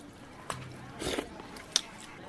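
Someone eats a chicken meal, with a few crisp biting and crunching sounds spaced through quieter chewing, moderately loud.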